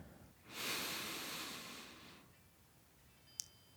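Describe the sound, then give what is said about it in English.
A big, deep breath drawn in during a meditation exercise: one soft, airy rush lasting about a second and a half, followed by a brief faint click. “Let's pause here for a moment and take a big, deep breath.”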